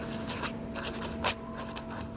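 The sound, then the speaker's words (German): A pen scratches across an envelope in a few quick strokes, with one stronger sweeping stroke near the end, over a low steady hum. “Scarborough, schreibt Mrs. Flanders auf den Umschlag und wirft eine schwungvolle Linie darunter.”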